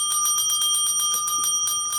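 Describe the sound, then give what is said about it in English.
A small bell, like a bicycle bell, rings rapidly and continuously for about two seconds. The bright, high metallic rings repeat at a quick, even rhythm, with no voices. “the bell still works, just checking”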